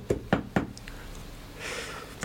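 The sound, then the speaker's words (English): Three sharp, evenly spaced knocks on a door sound in quick succession, fairly quiet, followed by a faint low background hiss. “This charity worker has made the mistake of knocking the door of Ebenezer Scrooge”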